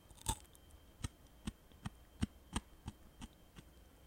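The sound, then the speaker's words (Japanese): Teeth bite and chew a hard, crispy piece of slightly cold takeout French fry, making a series of faint, evenly spaced crunchy crackles. “あのさ、ポテトのさ、硬いとこあるじゃん、うまいところ。あそこさ、いい音なるよ。ちょっとそれいけるかな。いきます。”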